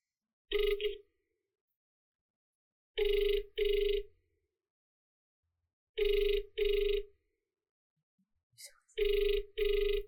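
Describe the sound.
A phone rings over speakerphone while a call is placed. One single ring is followed by three evenly spaced double rings, each a pair of bright, buzzing tonal bursts with silence between them.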